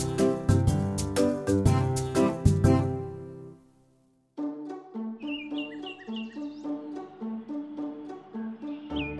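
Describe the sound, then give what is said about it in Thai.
Morning birdsong: a few short, high tweets over a plucked, tuneful music bed. The music plays first, stops briefly, then resumes with the chirps. “เสียงนกร้องปลุกช่างทำรองเท้าตื่นขึ้นเหมือนทุกๆวัน”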